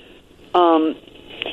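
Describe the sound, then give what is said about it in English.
A single loud electronic ringing tone of an incoming phone call, interrupting a woman on the radio: one steady, buzzy harmonic burst under half a second long over a thin, narrow-band line hiss, with no talk during it. “Yeah, I could tell she's getting a phone call. She's getting a phone call while she's on the radio.”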